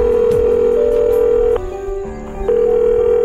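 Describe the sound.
Telephone ringback tone after a number is dialed on a mobile phone: a steady, low, buzzing tone that cuts off for under a second, then resumes.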